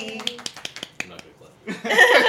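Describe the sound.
People clap in a few sharp, separate claps at a quick, uneven pace, then the clapping stops and voices take over.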